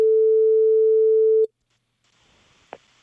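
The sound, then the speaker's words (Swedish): Telephone ringing signal while placing a call: one loud, steady single-pitch tone lasting about a second and a half, then near silence with faint hiss and a brief click. “Så vi tar och slår en signal till Vittim här då.”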